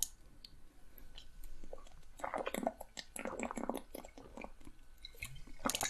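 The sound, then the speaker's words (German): Someone drinking a beverage, with soft wet mouth and swallowing noises mixed with small clicks and squishes, faint and alone without talk. “So, und jetzt muss ich erstmal was trinken nochmal und mich ganz kurz abregen”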